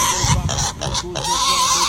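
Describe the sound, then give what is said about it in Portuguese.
Pigs grunting and oinking in a dense, steady run of snorts that stays loud for the full two seconds with no clear pauses. “Os porcos fugiram do chiqueiro.”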